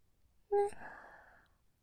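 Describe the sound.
Ragged breathing from a single person: one quiet, breathy sigh, a sharp intake followed by a fading exhale, alone in near silence.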